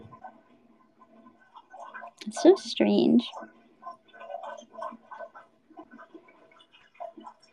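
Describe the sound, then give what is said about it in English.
Water drains from a bathtub with faint gurgling and dripping throughout, while a person briefly talks over it. “I hate the sound of my tub draining.”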